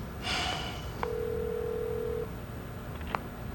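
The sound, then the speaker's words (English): Telephone tones as a number is dialed for an emergency call: a steady electronic tone holds for about a second, and brief beeps come before and after it over a faint hiss. “snatches the phone and dials”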